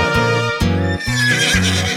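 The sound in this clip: A mare whinnies in a high, wavering cry over upbeat music with steady, repeated bass notes.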